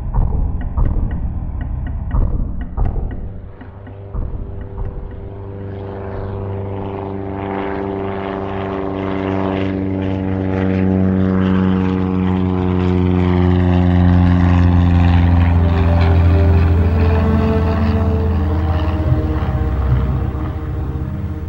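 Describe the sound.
A propeller aircraft drones as it descends toward an expedition camp, its steady, loud engine hum carrying layered tones whose pitch slowly shifts throughout, with no voices.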